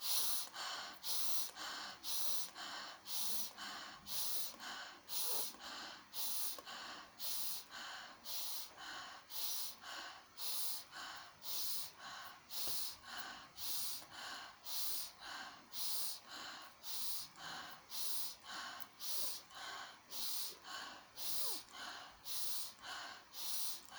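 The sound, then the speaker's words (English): Fast rhythmic breathing exercise: many quick, forceful breaths follow each other at a steady, even pace, each one a hissing, airy burst. The breaths continue alone without a pause throughout. “keeping the breath fast. Counting up to 30 and holding the breath on the top of the inhale. Let's begin.”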